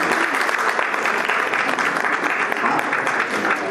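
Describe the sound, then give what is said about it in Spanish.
Loud applause from an audience at an academic ceremony fills the whole stretch: a dense, steady clatter of many hands that neither swells nor fades. “Igual un fuerte aplauso para ellos y para su madre.”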